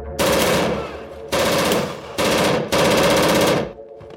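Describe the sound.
Machine-gun fire as police shoot gangsters: four loud, sustained bursts of rapid automatic shots separated by brief gaps, the last burst the longest before it cuts off. No voices are heard.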